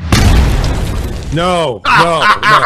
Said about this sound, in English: We got to hit you with a bomb.